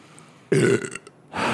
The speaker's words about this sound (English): That was you that burped.